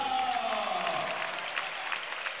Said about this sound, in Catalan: Aplaudeix el públic, se'n va una mica coix